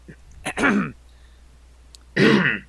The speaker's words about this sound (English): Clears the throat.